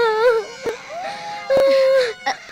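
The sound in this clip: A child crying after losing money gives wavering, whimpering wails that slide up and down in pitch, broken by a few short sobbing bursts.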